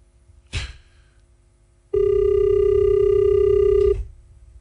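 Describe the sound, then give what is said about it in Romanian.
Ringback tone on an outgoing phone call: after a brief click, one steady, loud two-second ring sounds alone, then stops and leaves low background hiss. “încerc eu să-l sun uh, acum pe domnul Porvulescu să vedem dacă reușim să uh, luăm legătura așa cu tânsul”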